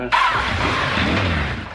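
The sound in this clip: A GPZ-550 motorcycle engine fires up abruptly and settles straight into a loud, even running drone that carries on to the end.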